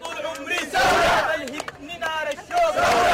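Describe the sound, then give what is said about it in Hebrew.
A celebrating crowd singing and cheering in the streets of Khartoum, loud overlapping voices with high, wavering sung cries rising and falling in pitch in repeated bursts. “רבים רקדו ושרו ברחובות חרטום, מברכים על הרגע וקוראים קריאות שמחה.”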